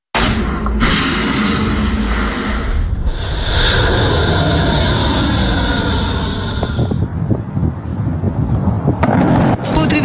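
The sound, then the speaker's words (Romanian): Jet airplanes roar at Ben Gurion Airport in Israel, a loud continuous rumbling blast with a high engine whine rising partway through, then a rough, fluttering roar that continues to the end. “Aceste imagini cu avioane sunt de pe aeroportul Ben Gurion din Israel, acolo unde administrația Trump”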